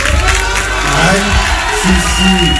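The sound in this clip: A crowd cheers and shouts for a rapper, loud whoops and raised voices blending into a continuous roar, with a few individual shouts standing out.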